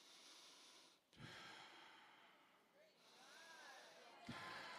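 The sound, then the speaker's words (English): A voice imitates the strained, labored breathing of a boy whose chest deformity restricts his air. Long, raspy, effortful breaths are broken by a couple of brief pauses and sharp catches. “He said, Mama, I'm breathing. And what I found out, he was born with a deformity in his chest that caused his air to restrict, and he had to kind of fight for every breath”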